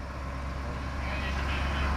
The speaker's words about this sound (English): A small old white school bus drives in front of the convention center.